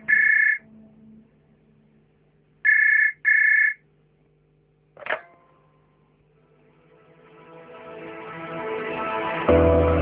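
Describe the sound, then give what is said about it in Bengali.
A telephone rings with a call from a police station: three bright electronic ring bursts, a single one followed by a quick pair. A sharp click comes after them, then a swelling, rising drone. “সেদিনই কুমিল্লা থানা থেকে phone এলো।”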